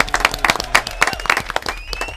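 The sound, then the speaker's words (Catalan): Clapping from a small group at a guessing game, with irregular, distinct claps in an uneven rhythm and moderate loudness. “Molt bé, un aplaudiment.”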